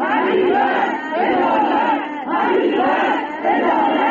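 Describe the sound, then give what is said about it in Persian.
Families of crash victims shouting for justice at Imam Khomeini Airport, a loud crowd chanting together in repeated rhythmic bursts with brief pauses between the phrases. “همچنین خانواده های قربانیان این حادثه با در دست داشتن عکس قربانیان و شاخه های گل در فرودگاه امام فریاد دادخواهی سر دادند.”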